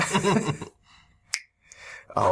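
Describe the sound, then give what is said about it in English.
A single sharp finger snap cracks out after a short stretch of voice, followed by faint rustling and another brief noise at the end. “Snap your fingers.”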